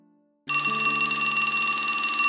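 A telephone rings with a loud, continuous electronic trill that starts abruptly after a brief quiet moment and holds steady to the end.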